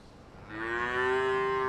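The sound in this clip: A cow in a dairy barn at a family farm in Higginsville, Missouri lets out a single long, loud moo, a steady tonal low call that holds its pitch for over a second.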